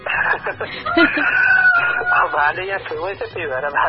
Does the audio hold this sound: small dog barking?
no